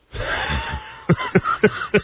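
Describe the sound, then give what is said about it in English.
A man coughing, four short harsh bursts in quick succession after a longer, strained throaty sound. “Oh, you made him cough now.”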